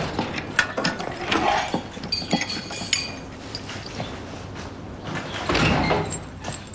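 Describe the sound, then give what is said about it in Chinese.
A door being opened, with metallic mechanical clanks, rattles and scraping clicks that arrive in uneven bursts, loud and with no voices. “把门打开。”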